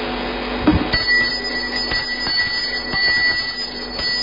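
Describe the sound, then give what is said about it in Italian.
A small bell rung to call a town council meeting to order before a budget vote: one sharp strike followed by high, sustained ringing tones that carry on fairly loudly over a low background hum. “Campanella.”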